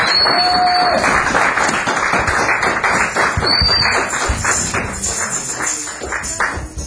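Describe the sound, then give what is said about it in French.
A church audience claps and cheers loudly in acclamation. The clapping is heavy and pulsing, and a few high whistles cut through it. It stays loud and eases slightly toward the end. “Au nom de Jésus de Nazareth, acclamons très fort pour le roi de roi.”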